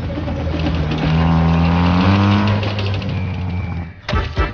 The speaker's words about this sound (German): Schnell sprangen sie auf das vorbeifahrende Fahrzeug auf. Der Laster fuhr zu einem Marktplatz.